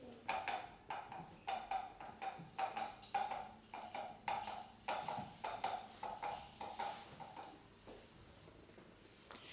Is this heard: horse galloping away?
yes